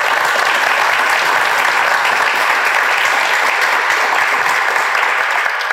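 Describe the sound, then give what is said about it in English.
Audience applause welcoming guests, a dense, even clapping that stays steady and loud for the whole stretch with no voices over it. “So you're all very welcome to Blurindy, and please put your hands together for our guests.”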